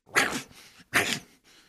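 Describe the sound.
A person imitating a pug dog's voice gives two loud snorting, bark-like bursts, each trailed by a fainter breathy tail.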